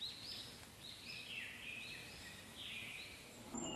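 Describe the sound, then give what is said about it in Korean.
Thin, high chirping of birds as a parent bird brings a beakful of earthworms to feed its five chicks. The calls are faint and overlapping, rising and falling in short runs, with soft rustling beneath. “지렁이를 잔뜩 물고 이제 옵니다. 자, 잔뜩 물고 왔죠. 다섯 마리 새끼 입에 골고루 밥 먹이느라 바쁩니다.”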